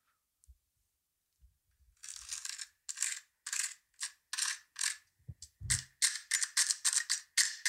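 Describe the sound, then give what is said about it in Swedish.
Chopsticks drag through the crispy wings of gyoza, making many short, dry, crackly crunches in quick rhythmic succession. A few soft low knocks come before the crunching starts and again near the end. “du ska få höra här på hur det låter när man drar sina ätpinnar på det här, de här vingarna. Och när man liksom drar bort sin första gyoza och ska äta.”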